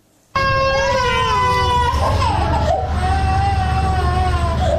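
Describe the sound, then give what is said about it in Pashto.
Young children, one month to five years old, cry in a provincial hospital in Tarinkot, where they are ill with diarrhoea. A loud, sustained, high wailing cry starts abruptly and continues without a break, its pitch wavering and dipping slightly. “دا جړاوی د هغه ماشومانو دي چې اوس مهال تازه د ناسناستي او یا هم د اسهال په ناروغي اخته دي”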